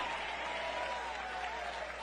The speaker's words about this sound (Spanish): Dale un aplauso al Cristo de la gloria.